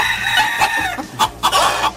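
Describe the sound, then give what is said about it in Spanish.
Chickens cluck and a rooster crows in a henhouse. Several loud bursts of clucking and crowing come one after another. “Mira, Ahí traigo al gallinero.”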